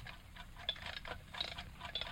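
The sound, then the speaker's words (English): Old wind-up alarm clock ticking on a lead table, a faint, rapid and even run of many light ticks that continues steadily throughout. “wind up that alarm clock and put it here on this lead table in the center of the magnetic field”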